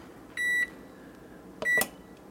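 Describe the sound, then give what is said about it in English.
An oven beeps as it is started over: two short, high electronic beeps about a second apart, the second slightly doubled, clear against a faint background hiss. “I'm gonna start the oven over again then. It didn't, yeah, just start it over. Here, do you want to hear it?”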